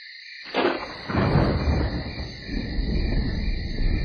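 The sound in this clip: Crickets chirp through the night in a steady, high, continuous drone, joined after a moment by deep rumbling from a thunderstorm underneath.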